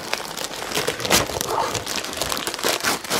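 Crinkling and crumpling of wrapping paper as a 1975 comic book is unwrapped. Many loud, dense rustles and crackles follow in quick succession, with no talk.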